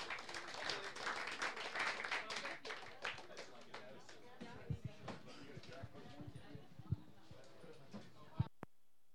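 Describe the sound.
Audience applause welcomes a guest singer onto a stage: dense, loud clapping for a few seconds that gradually thins into scattered claps and a few soft thumps.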